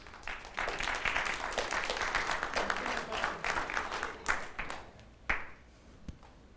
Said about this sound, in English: Okay, well, give a warm welcome to a soon-to-be-married young man.